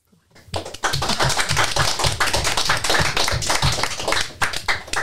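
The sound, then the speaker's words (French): Audience applause, nearly a standing ovation: dense, loud clapping from many hands that starts abruptly and holds steady for about five seconds. “C'est presque une standing ovation pour mais c'était spontané, j'ai remarqué.”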